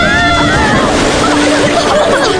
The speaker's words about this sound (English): Watch out. Here comes another wave.